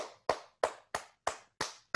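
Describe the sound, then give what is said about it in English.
Hands clapping to applaud a group member: six sharp, evenly spaced claps at a slow, steady rhythm. The claps are fairly faint and stand alone with no voices. “Let's give it up for Carol.”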